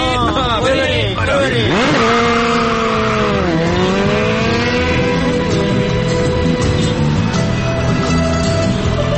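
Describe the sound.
A motorcycle revs and pulls away, its loud engine whine dipping and climbing in pitch over the first few seconds before settling into a steady, noisy drone.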